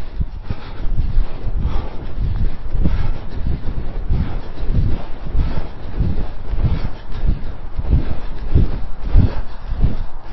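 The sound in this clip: Wind gusting across the microphone during a running workout on a wet, greasy grass track with snow flurries: a loud, steady low rumble with repeated pulsing surges throughout.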